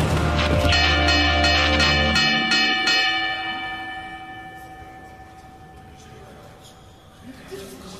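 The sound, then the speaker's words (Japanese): Boxing match gong rung in a quick series of bright metallic clangs, then a long shimmering ring that slowly fades over several seconds. “さあストップだ、13番ゴング鳴らして。”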